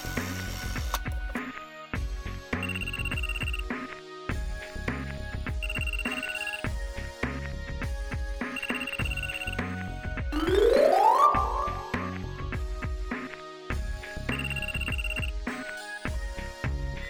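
A mobile phone rings with a looping electronic melody that repeats its short tonal pattern steadily and loudly for the whole stretch, with a brief rising sweep partway through and no voices.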